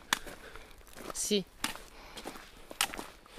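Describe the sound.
Footsteps of people walking uphill through the morning, a few sharp, irregular steps heard under ongoing conversation.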